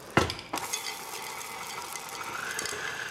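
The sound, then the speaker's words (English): Pecans are mixed into cookie dough with a sharp knock at the start, then a continuous soft scraping and stirring that runs steadily to the end. “All right, so I'll just throw in the pecans. And now I'll mix in all these yummy, exciting ingredients.”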